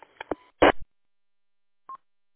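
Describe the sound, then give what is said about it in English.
Telephone keypad dialing tones sent over a radio repeater: a few short, harsh tone bursts in quick succession, then a pause and one brief, clean beep. “It's pretty neat how it works. It really is, Cliff, how they set that up on the repeater. And you got to make sure you just dial the right dials on the front of your”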